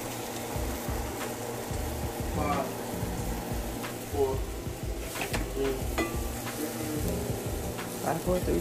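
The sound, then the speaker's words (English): Plantain frying in a pan, a dense steady sizzle with scattered stirring scrapes and light clinks running throughout. “What about my plantain? Yeah. I make my plantain the way I want to make my plantain. Basically, yeah, we're cooking.”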